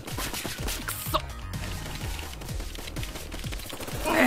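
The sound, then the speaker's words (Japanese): Rapid gunfire in a video game deathmatch: a dense, steady string of sharp shots that runs without a break for a few seconds, fairly loud and with no talk. “まず射撃の腕を見たいのでデスマッチをお願いします。”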